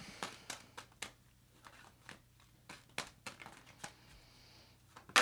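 Cards are drawn and laid down during a reading, giving faint, sharp little snaps and taps that come at irregular intervals.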